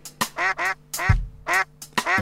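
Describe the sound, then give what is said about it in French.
Duck quacking in a quick, uneven series of nasal, reedy calls with short gaps between them, fairly loud and with no talk. “Ce petit canard fait.”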